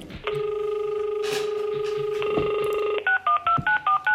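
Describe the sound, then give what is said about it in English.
A telephone number is dialed on a touch-tone phone: a steady dial tone holds for a few seconds, then gives way to a quick, even run of about six short electronic keypad beeps. “Okay, let's give him a call.”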